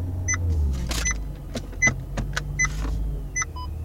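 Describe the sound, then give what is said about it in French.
A V8 car engine idles with a steady deep rumble, while short high chirps repeat faintly above it. “T'entends le V8?”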